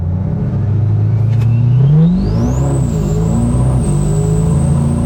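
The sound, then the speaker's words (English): A Nissan Titan XD pickup truck engine revs hard and throaty under acceleration. Its loud drone climbs in pitch, dips briefly at a fast gear shift, then climbs again and holds high. “But listen how throaty that thing is. Because that has a higher RPM red line than the six-cylinder does. Okay. And hear how fast those shifts came.”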